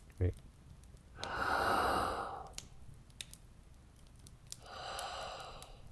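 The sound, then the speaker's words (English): Emphasized breathing: a slow, deliberate inhale and exhale. Two long, airy, breathy swells are separated by a quiet pause, and a brief soft tap comes at the start. “And you might just hear it when I emphasized it, the inhale and exhale.”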